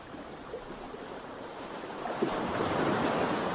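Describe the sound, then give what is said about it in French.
Sea waves wash onto a warm sandy beach, a soft, continuous hiss of surf that grows fuller and louder in the second half. “Le bruit de la mer vous berce”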